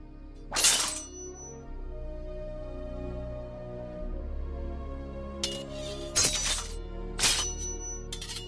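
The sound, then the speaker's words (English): Bright metallic clinks of foot-long claws from a man's knuckles striking each other as they spark, a few sharp ringing bursts spaced apart over a steady low hum, one early and the rest clustered near the end. “He compares both sets of blades, jumping as they spark when they touch.”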